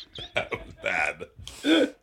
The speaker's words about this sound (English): Oh, that burp was disgusting.